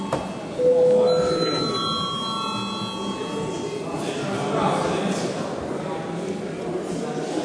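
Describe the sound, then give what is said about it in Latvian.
A bell rings to open a vote in the Latvian parliament: sustained ringing tones that last a couple of seconds, then fade into a low, steady background rumble. “Lūdzu zvanu, lūdzu balsošanas režīmu.”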